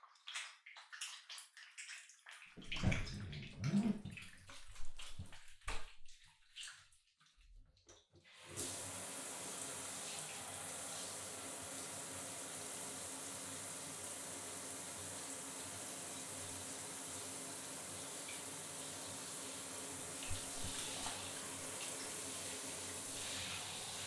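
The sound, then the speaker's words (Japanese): Steady running water from a tap rinsing soap foam off, an even, full hiss that begins abruptly after several seconds of scattered handling and splashing noises, then continues unchanged to the end. “私もついた泡流しちゃいますね。”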